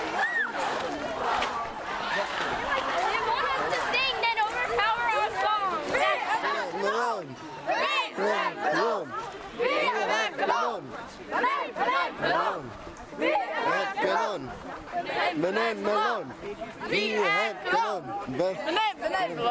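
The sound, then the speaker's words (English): A parade crowd heading to the Norwegian camp sings in Danish, Spanish, Norwegian and Finnish at once, a loud, dense mass of overlapping voices that carries on without a break. “Right now you're hearing songs in several different languages. Danish, Spanish, Norwegian, and Finnish at the same time. We're now in the parade to the Norwegian camp. And this is what it sounds like.”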